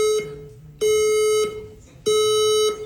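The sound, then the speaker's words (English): A fire alarm in a gallery beeps loudly, giving long, steady-pitched electronic tones in a slow, regular rhythm with short gaps between them. “That's a fire alarm. That's not part of the show.”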